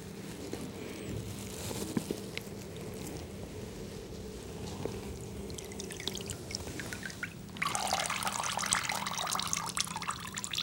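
Water splashing as a face is washed in a basin: continuous trickling and light splashing that swells into a louder, brighter rush near the end. No voices.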